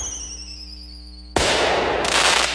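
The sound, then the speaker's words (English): Fireworks go off at an Independence Day celebration finale: after a short stretch of steady tones, a loud burst of dense crackling breaks out and keeps going, growing fuller and brighter near the end. “before the sky lights up with a spectacular fireworks finale.”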